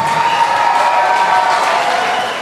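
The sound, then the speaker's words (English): A recorded crowd cheering effect, played as the reward for a correct quiz answer, forms a steady, dense roar of many voices at moderate level that holds for a couple of seconds and tapers slightly at the end. “So just cheering for the correct answer and the foghorn for the wrong answer.”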